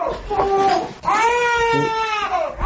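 A two-month-old infant cries in a house whose roof is holed by gunfire: two long, loud, tonal wails, the first ending abruptly and the second drawn out and wavering before trailing off.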